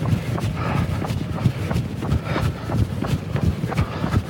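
Footfalls of a person running, forming a quick, even rhythm of soft thumps. The many steps keep a steady pace over a constant rushing background.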